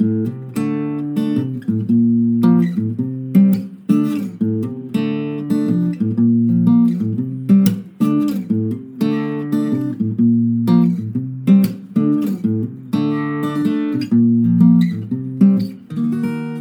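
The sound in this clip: An acoustic guitar plays a fingerpicked blues riff built on chords, starting from a D chord shape, with plucked bass notes and ringing strings. A loud, repeating phrase cycles about four times with no talking over it.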